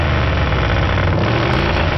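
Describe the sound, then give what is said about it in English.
A Harley motorcycle engine runs with a loud, continuous, rough rumble, holding a steady throbbing drone throughout without any clear rise or drop. “I just want to rev the throttle on this Harley and let it run for a bit.”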